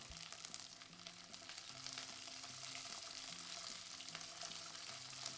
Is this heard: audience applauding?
no